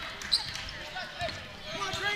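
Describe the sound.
Basketball dribbled on a court during a game by a player on one knee after a loose rebound; a few dull bounces sit low under steady background voices.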